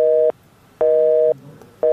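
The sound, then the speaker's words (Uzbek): A telephone disconnect tone sounds after the other party hangs up: three loud, steady buzzing beeps of about half a second each, evenly spaced by equal gaps, heard alone. “u Ozodlik radiosidan qo'ng'iroq qilayotganimizni eshitishi bilanoq aloqani uzib qo'ydi”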